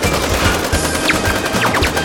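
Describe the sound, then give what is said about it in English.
Gunfire in a mock video advertisement about soldiers: loud, dense bursts of rapid automatic shots rattling continuously for about two seconds, with no talk. “The shooting.”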